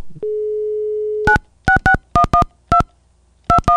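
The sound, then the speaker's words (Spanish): A steady telephone dial tone holds for about a second as a call is placed, then eight crisp touch-tone dialing beeps follow in quick, uneven groups, clear and alone. “Bueno, me estoy comunicando con el director. Bueno, está entrando la llamada telefónica.”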